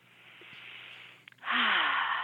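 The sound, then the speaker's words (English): A deep breath in during an energizing breathing exercise: soft breathy air, a brief pause, then one loud, rushing inhalation lasting under a second. “So with great vitality, I take that third deep breath in.”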